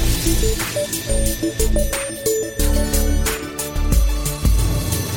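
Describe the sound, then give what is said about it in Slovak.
A radio station jingle plays as a continuous musical passage with a steady pulsing rhythm and sustained melodic tones, loud and unbroken throughout, with no voice evident. “pripravil ešte jeden jingle, ktorý tiež môžete brať vážne, má túto podobu.”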